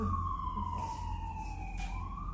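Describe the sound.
An ambulance siren sound effect gives one long wailing tone that glides slowly downward, then turns upward again near the end, over a low rumble.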